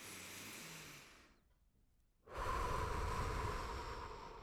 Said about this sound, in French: J'ai le goût de prendre un bon respire.